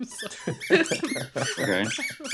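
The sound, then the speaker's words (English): Squeaks from a dog playing with a squeaky toy: a quick, uneven run of many high, bright squeals that bend in pitch, each short, with brief gaps between bursts. “That's my dog playing with a toy, by the way.”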